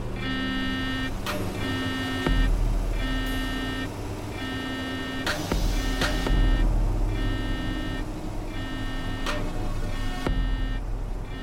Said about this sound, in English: She's gathered up, obviously dead, and pulled into the back of the van before it drives off.